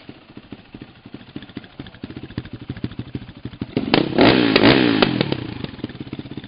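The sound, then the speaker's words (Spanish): A motorcycle engine at a motorcycle repair shop and store idles with a steady, rhythmic chug, then revs hard into a loud, sustained roar for about a second and a half before easing back toward idle. “también vemos un lugar de motos que se llama Full Motos.”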